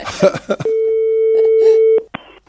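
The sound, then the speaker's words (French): A phone line's ringback tone while a call is placed: one steady, unbroken tone lasting over a second, with voices talking before it and briefly over it. “On va appeler David.”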